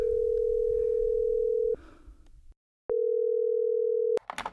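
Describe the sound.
A ringing tone from a call placed on a mobile phone: two long, steady, low-pitched tones with a short gap between them, faint noise in the gap and a click at the end.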